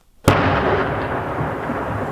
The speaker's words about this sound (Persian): دا د تیر شپې د هغه ډیسي توپ غږ دی چې د لشکرګاه له زړه څخه د ښار پر شاوخوا او د ندالي ولسوالۍ پر یو شمېر امنیتي پوستو د وسلوالو د سختو بریدونو پر مهال د افغان ځواکونو مرسته کوله.